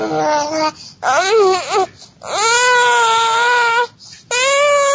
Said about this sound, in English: Here's a 4-month-old child babbling.